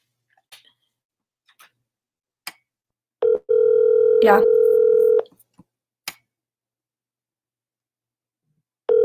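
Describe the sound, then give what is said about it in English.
An outgoing telephone call ringing: one steady electronic ring tone of about two seconds with a few soft clicks around it, and the start of another ring at the very end. “So I'm going to go ahead and give him a ring here.”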